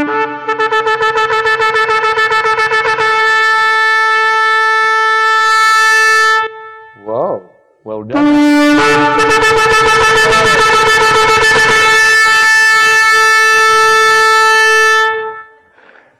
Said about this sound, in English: That was the sound of a shofar. It's pretty loud, isn't it? It could be a lot louder.